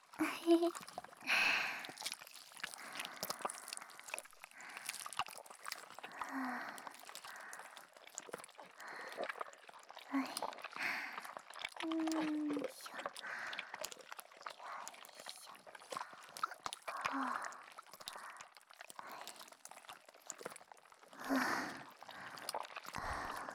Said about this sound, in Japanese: これ、すごく楽しい。スライムのプールみたい。